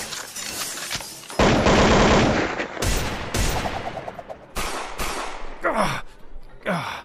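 Gunfire from an ongoing shooting comes as loud, repeated bursts of sharp cracks and rattling volleys, some long and some brief, one after another.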